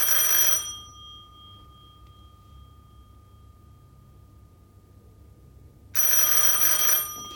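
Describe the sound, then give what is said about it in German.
A telephone rings in two loud, bright bell bursts separated by a long quiet gap, with a faint tone lingering between them and no voices. “Das Telefon.”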